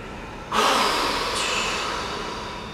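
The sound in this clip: A single powerful exhale during a guided breathwork ceremony, a loud rushing breath that starts abruptly and fades slowly over about two seconds.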